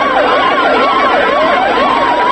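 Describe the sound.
Ambulance sirens at a street protest in Egypt against military rule wail continuously, the loud pitch sweeping up and down in repeated cycles over low traffic rumble.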